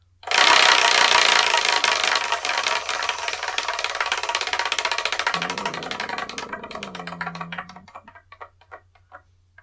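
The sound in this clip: Rapid ticking of a spinning wheel choosing the next book to review, a loud, fast clatter of clicks that gradually slows, the ticks spacing out more and more before stopping.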